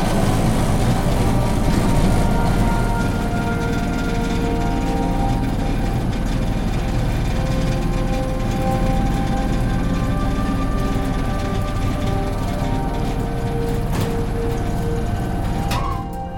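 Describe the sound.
Construction-site lift descending at the Slussen building works in Stockholm, a loud, steady mechanical rumble and hum that holds constant for the whole stretch, with no talk.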